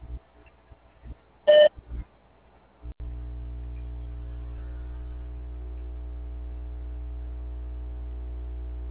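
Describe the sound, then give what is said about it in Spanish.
A voicemail beep follows a recorded telephone greeting: one short, sharp electronic tone, then a few faint clicks and a steady low line hum that continues to the end. “Deje su mensaje después del tono.”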